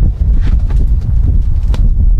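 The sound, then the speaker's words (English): Strong wind at an outdoor baseball game buffets the microphone in a steady, deep rumbling roar that lasts the whole clip, with faint rustling on top. “Wind almost blew the garbage can away over to my right.”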